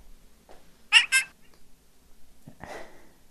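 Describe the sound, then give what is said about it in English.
A house cat meows a few times: two short, high-pitched cries close together, then a lower, rougher meow after a pause. The cries are fairly quiet, with no talking. “We've got the protege of the old Pranfunkel's cat who learned how to behave.”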